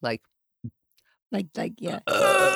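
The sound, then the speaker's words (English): Burping from someone who felt nauseous and could not drink water: a few short, low guttural burps spaced apart, then a longer, louder, tonal one at the end. “So I ended up, I couldn't drink water, and I kept burping”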